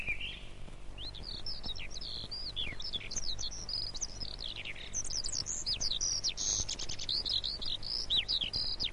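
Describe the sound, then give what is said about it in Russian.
A thrush sings its first, still timid song of spring, newly returned from the south. Many short, high, whistled phrases repeat in varied shapes over a faint, steady background. “Свою первую песню поет дрозд. Слышите? Пока еще очень робко.”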